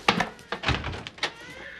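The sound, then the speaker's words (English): Someone bangs on a door with a rapid, uneven series of heavy thumps and knocks, some clustered close together, all ringing out over about a second and a half. “Stop banging on my door.”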